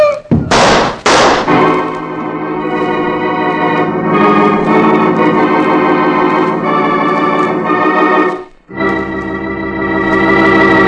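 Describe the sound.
Gunshots in a radio drama: two sharp, loud bangs open the scene, then a long, sustained dramatic music chord swells and breaks off before another loud hit near the end.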